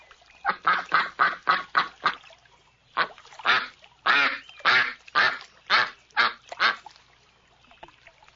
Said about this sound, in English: Ducks quack.